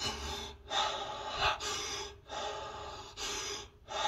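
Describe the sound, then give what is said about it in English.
A person demonstrates connected breathwork with deep, audible inhales and exhales that run together without pause at a steady, fairly quick rhythm. Each breath is loud and airy, with only brief dips between cycles. “it's something as simple as 30 connected breaths, and you know, it's a pace like this.”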